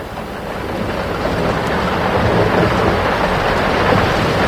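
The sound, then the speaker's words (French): Thunderstorm with wind, heard as a constant broad roar and rumble that slowly builds a little louder, with no distinct thunderclaps. “J'ai peur de l'orage. Il ne faut pas, mon enfant. L'orage est aussi une des voix de la nature.”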